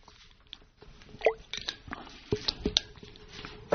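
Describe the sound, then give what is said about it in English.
A person takes a quick drink of water: a few soft, wet sips and swallows with small clicks and squishy mouth noises, faint and with no talk. “Let me take a quick drink of water here while you turn.”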